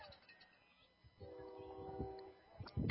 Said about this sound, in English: You can hear a train in the background passing through the town tonight.